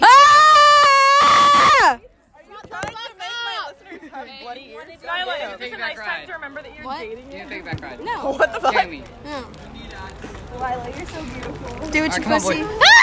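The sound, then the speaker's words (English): A person screams loudly and steadily for about two seconds, then breaks off into people talking over one another. “Welcome back to me screaming, part three.”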